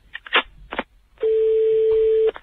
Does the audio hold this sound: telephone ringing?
yes